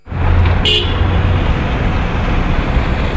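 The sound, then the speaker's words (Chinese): Busy street traffic in the Chongwenmen commercial district of Beijing, a steady, loud roar of passing vehicles with a short car horn toot near the start. “这里地处北京崇文门商圈，每天从这儿经过的车辆川流不息，人们行色匆匆。”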